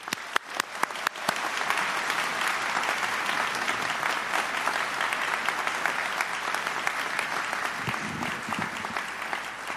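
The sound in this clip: Applause from the audience at a county executive inauguration in Anne Arundel County as a speaker is welcomed to the stage. A few sharp claps open a dense, steady round of clapping that holds throughout.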